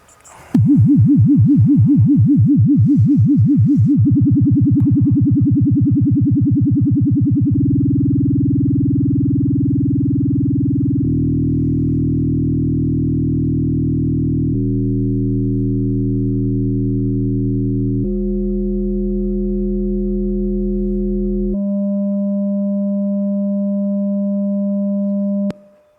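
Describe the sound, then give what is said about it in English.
A low electronic sine tone with vibrato whose wobble rate speeds up in steps, beginning as a rapid pulsing flutter and turning into a steady, rougher, buzzy chord-like tone as the vibrato reaches audio speed, held loud and continuous throughout. “This was the same 200 hertz carrier the whole time, so the same note. All we were doing was changing how fast vibrato goes.”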